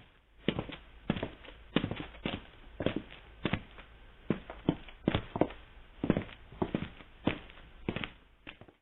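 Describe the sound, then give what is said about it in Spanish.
Heavy footsteps advancing along a corridor with other feet following behind: many loud, evenly spaced thuds in a steady walking rhythm, alone without talk. “Ahora puedo escuchar nuevamente los pesados pies avanzando a lo largo del corredor, con muchos otros pies inútiles siguiéndolos detrás.”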